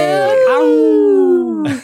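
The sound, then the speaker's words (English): People imitating howling wolves: a loud, sustained voiced howl whose pitch slides slowly downward over more than a second, then breaks off into a brief rougher vocal sound. “Howling to the moon. Yeah. Loving it. Now, I love your howls.”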